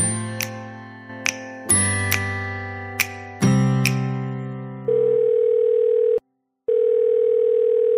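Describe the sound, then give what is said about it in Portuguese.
Telephone ringing tone for an outgoing call: a short run of several chiming electronic notes, then two long, steady ringback tones separated by a brief silence. “Agora sim, vamos ligar pro Daniel Cury e eu vi que histórias ele tem pra contar pra gente.”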